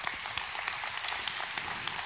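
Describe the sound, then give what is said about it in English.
An audience claps, a dense, even patter of many hands sustained throughout without pause. “In fact, not everybody clapped there”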